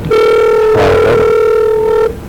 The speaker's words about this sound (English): We now have a phone call to Theodore Carey.